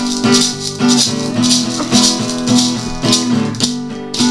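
Maracas shaken in a steady, even rhythm alongside sustained instrumental chords during a music session, each bright rattling burst recurring about twice a second.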